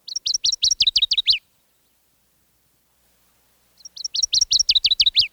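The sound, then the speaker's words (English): Song of a northern waterthrush in flooded woods: two bursts of rapid, high, ringing chirped notes, each ending in a quick flourish, separated by a few seconds of silence. “Here also the northern water thrush teeters and scolds and sends its ringing notes through the flooded woods. Sweet, sweet, sweet, where, he calls.”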